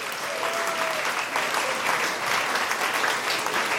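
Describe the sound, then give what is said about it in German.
Applause from a live audience at a celebration, a steady dense wash of clapping that holds at an even, fairly loud level throughout without pause. “Merci vielmals und einen Applaus.”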